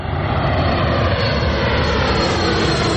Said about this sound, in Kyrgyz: Мына өзүңөр көрүп турасыңар, шаардын ортосуна жайгашып, шаардын үстүнөн учуп өтөт самолетчу.